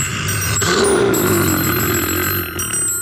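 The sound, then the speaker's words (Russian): A telephone ringing with an important call: a loud, continuous bell-like ring holds at a steady tone throughout. “Тут у меня звонок один, очень важный, ответить надо.”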